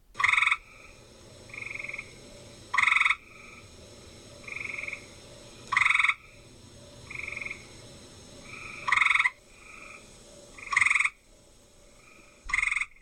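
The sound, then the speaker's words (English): Tree frogs give short, musical, bird-like trills, likely an eastern gray tree frog. The bursts repeat every second or two over a low steady background hum, louder calls alternating with softer ones. “They can be distinguished by their calls, a musical bird-like trill in the eastern gray tree frog,”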